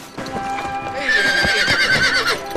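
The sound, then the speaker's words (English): Horse ridden through a forest: brisk clip-clopping hooves, then a long, loud, high-pitched whinny carrying over the continuing hoofbeats. “Marion's riding through the forest when Robin leaps out.”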